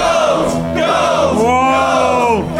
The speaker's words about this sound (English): Listen to that, Norwegian podcast convention!